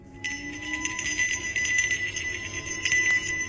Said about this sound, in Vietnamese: Những quả chuông nhỏ kêu lên len keng khe khẽ.